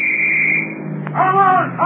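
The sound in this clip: A car speeds along a road jammed with traffic on the way to Lakehurst, its engine a steady drone with a high whine, and a voice comes in toward the end.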